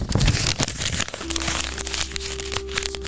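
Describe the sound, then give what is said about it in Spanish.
A sheet of paper is crumpled in the hands, giving a brief burst of crackly crinkling in the first second, followed by a steady low hum. “y daño este papel, ¿verdad? Y ustedes creen que este papel yo lo voy a tratar de ponerlo para atrás”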